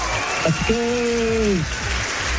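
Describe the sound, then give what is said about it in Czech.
Applause forms a steady, dense patter that runs throughout, and a voice briefly sounds over it. “To je nekonečný potlesk.”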